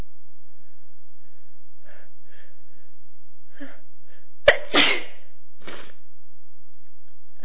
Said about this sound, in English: I hope I won't be sitting here all night sneezing.